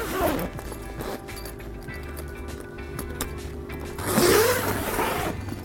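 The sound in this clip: A zipper is pulled shut on a Scent Crusher closet bag, a short raspy zip that rises in pitch about two-thirds of the way through, over a steady low background hum.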